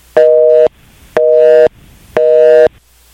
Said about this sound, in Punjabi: I think ਸਾਡੀ ਜਿਹੜੀ ਕਾਲ ਹੈਗੀ ਜੀ ਉਹ ਮੁਬਾਰਕ ਜੀ ਦੇ ਨਾਲ ਡਿਸਕਨੈਕਟ ਹੋ ਗਈ ਹੈ